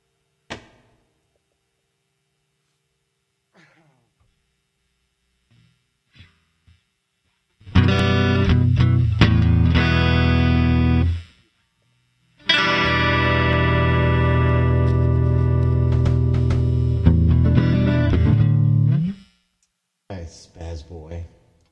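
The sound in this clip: Big cymbals played through reverb and looping effects, heard as two long, loud, distorted washes that sustain for several seconds each. A few faint knocks come before them, and a brief burst follows near the end.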